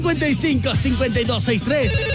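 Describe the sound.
A telephone rings repeatedly as a caller is dialed in for a phone-in vote during a tied band contest, with continuous talk over the ringing.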